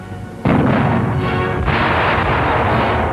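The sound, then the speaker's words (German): A Panzerfaust anti-tank weapon fires during a handling demonstration in a German city, a sudden loud blast that turns into a sustained, broad roaring rush, then surges a second time partway through. “Panzerfaust schießen in einer deutschen Stadt.”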